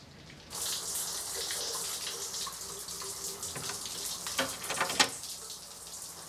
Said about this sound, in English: She rinses her hair and rubs her face under the running water.